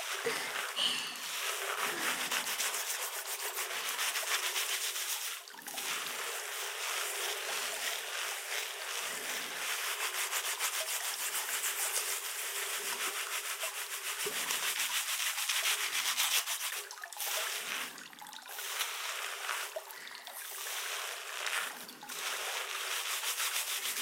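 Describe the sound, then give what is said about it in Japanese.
Scrubbing and rubbing while washing a person, a rasping friction repeated in many strokes with brief pauses between them, steady in loudness and with no talk. “洗っていきますからね。”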